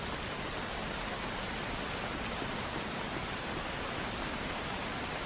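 Steady rain pours down in an even, dense hiss that holds at a constant level throughout, with no voices or other sounds.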